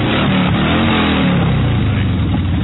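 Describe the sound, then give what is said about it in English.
A motorcycle engine revs as a bikers' parade contingent gets under way, a loud, continuous, throaty drone held steadily throughout with no talking over it. “we want to get some Dykes on bike sounds. Someone want to rev it for us?”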